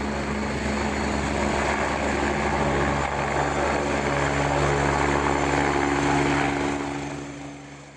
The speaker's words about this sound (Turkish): Hastane bahçesine iniş yapan ambulans helikoptere sağlık ekipleri tarafından nakledilen bebek Konya Şehir Hastanesi'ne sevk edildi.